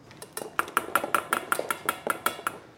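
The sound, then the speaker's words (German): Rapid chopping of butter with a very large knife during Christmas baking, heard as about a dozen crisp, evenly spaced strikes in a steady rhythm with faint metallic clatter between them. “macht gerade Butter mit einem riesigen Messer klein.”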